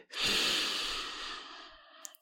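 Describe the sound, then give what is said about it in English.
One deep breath drawn in through the mouth: a long, airy, breathy inhale that swells quickly and slowly fades over about two seconds, followed by a few faint clicks. “Deep breaths. In.”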